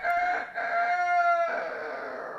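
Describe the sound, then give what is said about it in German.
A rooster crows at night from a cherry tree, giving one long, loud, harmonic crow that holds steady for over a second before breaking off into a softer, rougher tail. “einen Hahn fort und fort krähen. Der saß auf einem Kirschbaum und hatte schon die ganze Nacht gekräht.”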